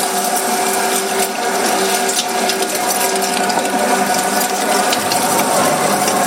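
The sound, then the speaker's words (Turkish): Meat grinder at a butcher's mincing sacrificial ram meat, a loud, steady mechanical grinding and whirring with a rattling, gear-like texture that runs unbroken throughout. “Bugün de kıyma çektiriyoruz. Kıyma makinesi kasaplarda bir saniye durmuyor.”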